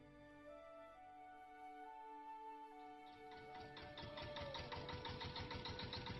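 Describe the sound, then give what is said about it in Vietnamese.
An old công nông farm truck with a rusted, hole-pocked bed runs its engine. A faint steady hum turns into a rapid, rhythmic chugging putter that grows louder toward the end. “Chiếc xe công nông bao bánh cũ kỹ, thùng xe còn có những lỗ thủng do sắt hoen gì lâu năm dừng lại cách cây đa đầu làng”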